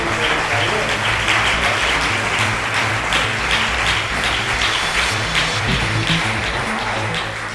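Audience applause at the close of an annual gathering, a dense, steady wash of many hands clapping that stays loud and even throughout.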